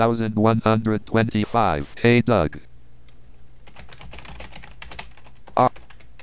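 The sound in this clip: A voice speaks briefly, then a computer keyboard clatters as a message is typed: many quick, light key clicks in an uneven run, moderately loud, with one sharper keystroke near the end.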